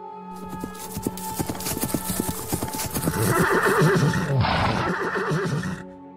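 Clip-clop of hooves as the horses of two riders arrive across desert sand, a busy stream of many hoofbeats that grows louder midway, with a horse's whinny rising above the trotting.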